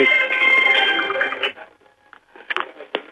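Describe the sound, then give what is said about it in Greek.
A mobile phone ringing repeatedly, its ringtone a steady cluster of bright tones lasting about a second and a half before cutting off, followed by faint scattered clicks and noise. “Συγγνώμη για τις παρεμβάσεις, είναι το κινητό που χτυπάει συνέχεια.”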